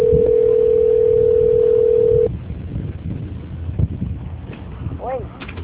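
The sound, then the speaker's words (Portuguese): A steady, single-pitched telephone tone plays during a call transfer. It holds at a constant level for about two seconds, then cuts off abruptly and leaves low, murmuring line noise. “A ligação ficará muda por alguns instantes. Peço, por favor, que não desligue.”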